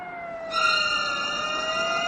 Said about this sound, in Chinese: 远处忽然响起了警车声